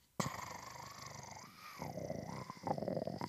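Low rumbling purr from a cat that has jumped onto a table beside food being cut, purring close into the microphone. The purr runs continuously, rough and throaty, then grows louder and more pulsing toward the end.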